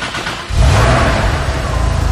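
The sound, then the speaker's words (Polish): A Datsun 280 engine with mechanical fuel injection kicks up sharply after about half a second into a loud, revving rumble. The revs then waver slightly as the injection settles into steady running. “Jak pan słyszał, były lekkie, jakby to powiedzieć, falowania obrotów. To jest ten moment, kiedy ten właśnie wtrysk mechaniczny łapie i ustawia się tak, żeby normalnie działał, normalnie funkcjonował. Jest to Datsun 280.”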